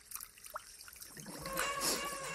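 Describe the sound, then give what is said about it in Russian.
Shower water trickles as it runs out, with sparse faint drips and dribbles at first, then a louder, fuller gush of splashing water toward the end. “Мать стоит под душем в одной из кабинок. Вода неожиданно заканчивается.”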